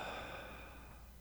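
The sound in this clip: A deep breath exhaled, heard alone as a single soft, breathy rush of air that eases off gradually over just over a second.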